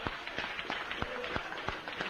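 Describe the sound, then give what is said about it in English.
Hand clapping from a church audience praising God, a steady run of many sharp, evenly spaced claps at a brisk rhythm, moderately loud throughout. “Let's give God a hand clap. Let's give him a hand clap.”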